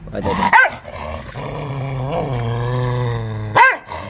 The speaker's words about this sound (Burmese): အဲဟောင်းတာတစ်ချက်တော့ကြားလိုက်တယ်